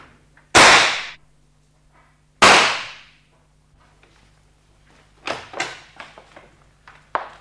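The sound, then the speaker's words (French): Two loud, sharp revolver shots fired inside a living room, each cracking out with a short decaying tail, followed later by a few fainter knocks and clatters. “Vous tirez des coups de revolver dans le salon, maintenant? N'ayez pas peur, c'était le deuxième et dernier coup.”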